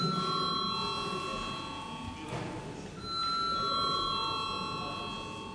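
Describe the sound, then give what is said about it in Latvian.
An electric bell rings in a parliament chamber before a vote: steady, high tones that sound continuously, break briefly near the middle, then resume over low background noise. “Lūdzu zvanu.”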